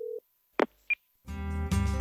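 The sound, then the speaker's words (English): Telephone sounds while a call to Casper, Wyoming is placed: a short low tone, a click, a brief high beep, then a buzzing ring tone that swells louder near the end. “we'll pick up the phone and give them a ring to Casper, Wyoming, where they're both sitting in their offices right now awaiting Paleo Nerds. The phone call.”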